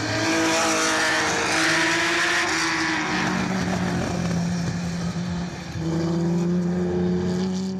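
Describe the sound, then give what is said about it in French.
A 305 Turbo race car, a 1985 racer, drives laps at the Montlhéry circuit, its engine holding a loud, steady, buzzing drone that dips briefly near the end before resuming. “C'est parti sur le circuit de Montéry pour découvrir cette 305 Turbo de Jean-Pierre Valcher, avec laquelle il a roulé en 1985, ici même à Montéry.”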